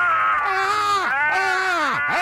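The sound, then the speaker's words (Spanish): Two people let out a scream to vent their anger over a football injustice: a loud, sustained, wailing cry whose pitch wavers and dips sharply twice before rising again. “Vamos a gritar los dos para desahogarnos por esta injusticia. ¡Gritemos!”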